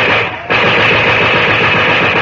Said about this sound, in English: Groups of the Negroes huddled behind barricaded doors answer the machine gun fire with two or three scattered shots.